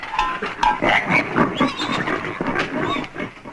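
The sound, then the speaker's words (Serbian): Pig grunting: a continuous run of loud, rough grunts and snorts, with no talk over them. “Tata, prase! Prase!”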